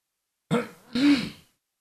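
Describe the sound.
A person clearing their throat in two short, harsh, rasping bursts, the second one longer and stronger. The sound is heard alone, with silence before and after.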